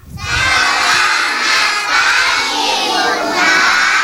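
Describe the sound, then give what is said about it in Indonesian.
Kindergarten children from TK Nusa Indah Padang shout and cheer in a radio studio, a loud, continuous wall of young voices that surges up at the start and stays high and energetic. “Wah, senang sekali ya hari ini studio RRI jadi ramai dan penuh semangat. Hari ini Bunda pembawa pasukan hebat dari TK”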